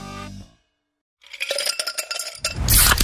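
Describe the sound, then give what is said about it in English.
Pepsi Zero Sugar cola fizzes in a glass. After a short pause, crackling bubbles with faint light clinks build into a loud, bright hiss at the end. “You hear that? That's the sound of Pepsi Zero Sugar, the better tasting, more refreshing Zero Sugar Cola.”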